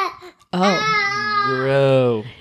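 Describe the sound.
Baby babbling from an infant boy past the newborn stage: one sustained, loud voiced vocalization with wavering pitch that follows a brief softer sound and a short pause.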